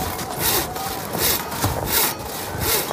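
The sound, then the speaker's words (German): A hand saw rasps through thick sea ice on a polar expedition's ice floe, with steady back-and-forth strokes in a continuous, gritty rhythm. Each pull swells and fades, and there is no talking. “Er sägt wie ein Irrer, manchmal sogar 15 Minuten am Stück.”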